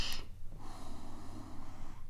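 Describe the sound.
A voice imitates the heavy, rasping breathing of someone in a mask or respirator, drawing air in and pushing it out. The hoarse, airy sound is continuous and fairly even over about two seconds, with a brief sharp hiss at the start.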